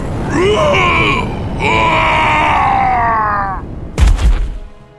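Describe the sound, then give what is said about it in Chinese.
A creature's anguished scream, from the robed leader of a group of monsters, rises in two long, loud, harmonic wails. A sudden heavy, low burst follows. “那生物没说完的话变成了一声尖叫”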